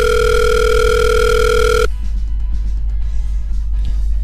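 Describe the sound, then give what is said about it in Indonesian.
A telephone dial tone as a call is placed, a loud, steady electronic tone held for about two seconds that then cuts off abruptly, leaving a quiet line hiss. “Sebentar ya, coba uh, kita hubungi Vitor terlebih dahulu.”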